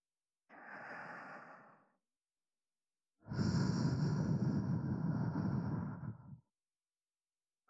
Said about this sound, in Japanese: 念のためにお耳ふうってするね。